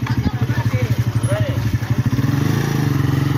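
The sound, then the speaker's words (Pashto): A motorcycle rickshaw engine chugs along in a village, its low, rhythmic putter running steadily and growing a little louder and denser toward the end. “دغه د موټر سایکل چنچې رکشې ګرځي سودا ګرځي په دې کلو کې کنه.”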